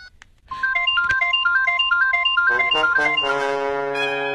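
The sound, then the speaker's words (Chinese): A mobile phone ringtone plays as one phone dials another: a quick, repeating bright melody of short synthetic notes gives way to sustained, layered chords, loud and alone with no voices. “乔丽娜用卜小韵的手机拨打自己的手机号码”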